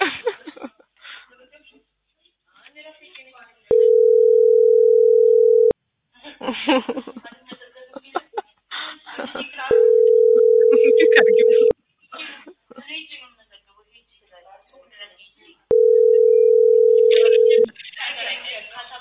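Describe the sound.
Telephone line tones during a phone call: three steady, evenly spaced tones of about two seconds each. People talk in the gaps between them.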